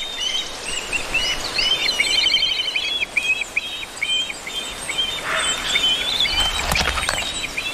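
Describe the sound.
Black kites calling in a Mediterranean forest, heard as many short, high chirps and thin trills over a steady background hiss.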